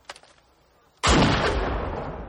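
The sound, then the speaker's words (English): A single loud gunshot from a discharged weapon cracks out sharply after a near-silent start, then a long, dense rumbling tail rolls on until the end. “Discharge your weapon. Discharge your weapon. Do it!”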